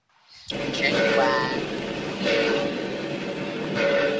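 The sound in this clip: A real train in an old western film scene. A rumbling roar bursts in abruptly after a brief quiet start, then holds steady with a few swells of louder noise.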